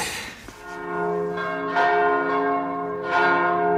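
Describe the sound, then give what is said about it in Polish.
Church bells ring out in Polish cathedrals in the evening as overlapping, sustained tolls with long, shimmering harmonic hums, each new strike swelling the loud ringing, and no voices present. “Wieczorem biły dzwony także w polskich katedrach.”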